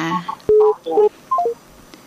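Telephone keypad tones during a call to a phone-in line, heard as a few short dual-tone beeps in quick succession.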